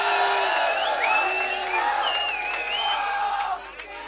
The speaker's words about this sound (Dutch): Ik wil eerst applaus horen voor Erwin Java.